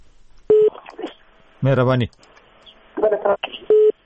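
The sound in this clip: Brief steady telephone tones as a call-in line is cut off: one short tone at the start and another near the end, with a voice speaking in between.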